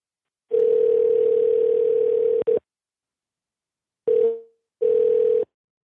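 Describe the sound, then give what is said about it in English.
A landline telephone dial tone sounds as a steady, hum-like note for about two seconds, then cuts off. After a pause, two short bursts of the same tone follow. “I think we're going to call you back on a, for the first time in a really long time, a landline.”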